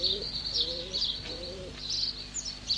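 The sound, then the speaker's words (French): Pigeons kept by pigeon fanciers in a mining-town terrace coo softly in a few low, throaty, rolling phrases, with higher chirps from birds mixed in over a faint, steady background hiss. “Les femmes sont un peu jalouses de l'amitié que les hommes portent à leurs pigeons. L'oncle Henri aussi est colombophile.”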